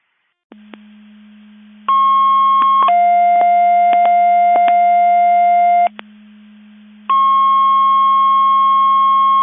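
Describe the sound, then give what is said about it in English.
Fire department general-alarm dispatch tones for Crystal Lake: a loud steady tone drops to a lower pitch after about a second, holds for three seconds, cuts off, then returns at the first pitch, all over a constant low hum with a few clicks. “Crystal Lake Fire General Alarm. Station coverage.”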